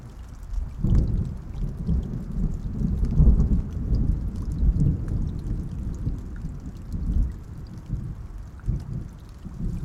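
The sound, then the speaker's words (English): Thunderstorm with heavy rain: a dense, steady hiss of pouring rain under deep, rolling rumbles of thunder that swell and fade repeatedly. “and of course, rain. More rain. Lots and lots of rain.”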